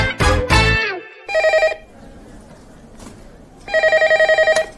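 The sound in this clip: A telephone rings in two bursts of rapid, bright trilling rings separated by a short pause. A brief loud vocal sound comes just before the first ring.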